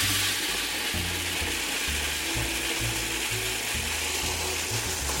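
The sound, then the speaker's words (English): A food processor grinds seeds into seed butter with a loud, steady whirring motor and a rhythmic low chugging that runs alone through the whole clip. “grinds faster and turns into a seed butter quicker. So 1 and 2. And now I'm going to grind it.”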